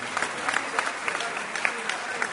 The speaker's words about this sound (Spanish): Muchas gracias, un aplauso para Rocha.